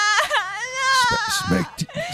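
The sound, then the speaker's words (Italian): A little girl's high, wavering wail rises and falls for about two seconds, breaking into short sobbing catches near the end. “Smettila di piangere, piccola sgarra.”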